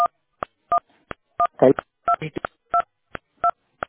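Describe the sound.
Telephone keypad tones sound as buttons are pressed: a steady series of short, clipped two-note beeps at an even pace, with a brief rougher burst partway through.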